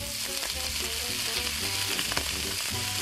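Sausages sizzle in a pan, a dense, steady frying hiss dotted with many small crackles and pops, with no talk.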